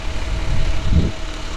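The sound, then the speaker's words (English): An orange public works dump truck's engine idles with a steady low, rumbling drone and a brief louder swell partway through, with no voices. “And then there's another orange Public Works dump truck. And then there's another one up the side street here with a trailer.”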